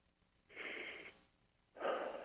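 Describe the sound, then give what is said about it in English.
A deep breath, heard as two soft, airy breath sounds separated by a brief pause, the second fuller and louder than the first, with no talking. “Just take a deep breath.”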